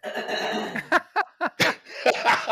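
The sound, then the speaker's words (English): A woman clears her throat in a few short, rough bursts spaced close together, with faint murmuring voice before and after. “And she cleared her throat for you.”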